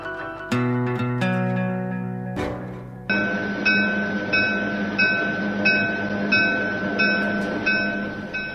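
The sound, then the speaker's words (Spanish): Riding the last passenger train of the day: a steady, loud rumble carries regular clacks as the wheels pass over rail joints, repeating at an even, fast rhythm with no talk. “Nos encontramos en el último tren.”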